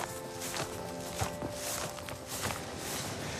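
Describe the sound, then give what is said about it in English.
Footsteps of someone walking up a grassy field sound as soft, irregular steps, faint over a steady background hiss. “So we're climbing up a field now towards the avenue”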